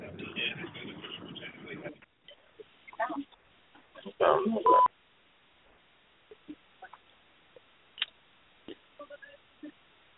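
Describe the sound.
A phone number is dialed, heard as a scatter of short electronic tone beeps in an uneven sequence. Talk comes before them, and there is a louder burst in the middle.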